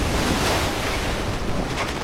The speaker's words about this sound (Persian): امیدوارم بی خودی تو این طوفان جونمونو به خطر ننداخته باشیم.